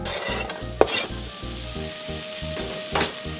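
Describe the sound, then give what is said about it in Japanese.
Diced apples and ginger sizzle in butter in a pan, a steady bright frying hiss broken by a few scraping stir strokes. “こうやって生姜に少し火を通していきます。でこちらに先ほど角切りしたリンゴを入れます。”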